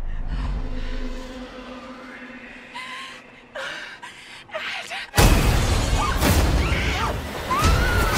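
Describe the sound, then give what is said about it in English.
Horror movie trailer audio for The Conjuring: The Devil Made Me Do It, with low droning sound design and scattered hits, then a sudden loud crash just past the midpoint that opens into a dense, roaring wall of noise. “you were just listening to the trailer for The Conjuring, The Devil Made Me Do It”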